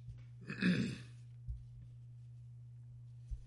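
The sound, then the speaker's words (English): A single throat clear, a short rough burst from one person near the start, followed by faint small knocks over a steady low hum. “excuse me, family, a little something in my throat there”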